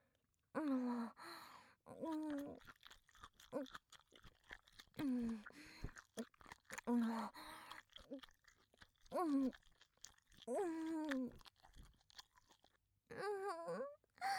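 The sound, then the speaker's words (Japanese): In a horror audio drama, a heart is chewed and eaten with many wet crunches and bites, quiet and broken by breathy moans, gasps and sighs from a voice. “中から勢いよく血が吹き出してくるの、心臓を食べる時の醍醐味よね。”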